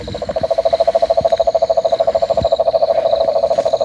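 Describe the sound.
Cane toads calling near water, a loud, steady, rapid pulsing trill of many evenly spaced pulses that continues without a break, with no voices.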